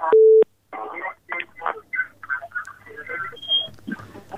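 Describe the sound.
A short, steady telephone tone sounds as a call-in line connects to the next caller, then people talk in quick, uneven phrases.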